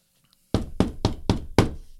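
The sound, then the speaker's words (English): Knocking on a door: five heavy, evenly spaced knocks, loud and resonant, with no voices. “He keeps on knocking.”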